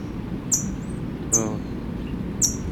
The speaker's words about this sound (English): faint response from chick in nest